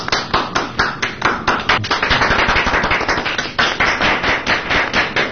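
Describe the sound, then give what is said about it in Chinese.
Audience clapping at a 2018 Beijing comedy stage show, many sharp, loud claps in a quick and fairly even rhythm that continue steadily throughout, with no talk. “鼓掌。”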